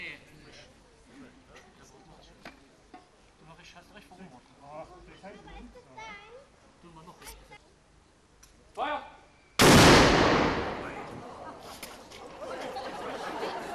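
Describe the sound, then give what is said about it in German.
Ceremonial gunfire in front of a castle after a flag consecration. Crowd chatter murmurs at first, then a loud gunfire blast erupts and rings on in a long, rumbling roar. “Nach der Fahnenweihe und der Übergabe gab es im Anschluss noch ein Schießen vor dem Wolkensteiner Schloss.”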